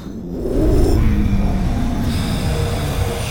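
An old diesel locomotive starts up and drives off, its deep engine rumble swelling in within the first half second, then holding a loud, steady, throbbing drone.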